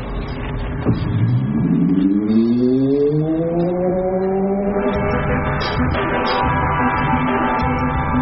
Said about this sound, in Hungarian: Most viszont kell a kuplung gáz, előre menetet kapcsolok, ennyi, és akkor mehetünk is előre.